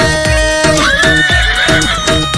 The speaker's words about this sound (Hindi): घोड़े असवार बाबो आवे रे,